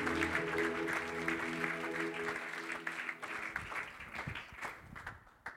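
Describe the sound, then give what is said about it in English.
A church audience applauds to welcome a pastor at a morning service. Broad, sustained clapping continues for several seconds, then thins into scattered individual claps toward the end. “I'm just going to ask us to put our hands together as we welcome Pastor Aaron to speak to us this morning.”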